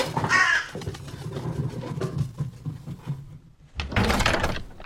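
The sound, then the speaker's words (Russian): A black raven caws as it flies overhead and lands on a chandelier: a few harsh, rasping calls, loud against a low rumbling background. “Черный ворон, пролетев над головой Артура, садится на люстру.”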